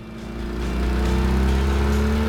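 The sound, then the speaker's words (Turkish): A car engine revs as the throttle is given after electrical wiring work on a sluggish motor, its low, steady droning note building in loudness and then holding strong. “Biraz gaz vermeyi dene. Gaz mı? Birazcık. Evet, çok abartma sakın.”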